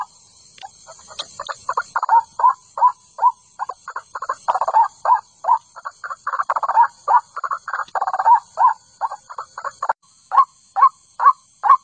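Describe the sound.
A bird calls over and over, giving many short, harsh mid-pitched notes. The notes come in a steady, fairly regular rhythm and are loud and clear, with no voices.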